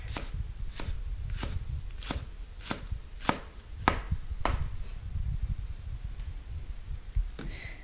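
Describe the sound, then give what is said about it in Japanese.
A knife finely minces a long green onion on a cutting board in a steady run of about eight crisp, evenly spaced strokes, then a pause and one final chop. “みじん切りはネギを回しながら縦に何箇所か切れ目を入れます。それから端からみじん切りにしていきます。”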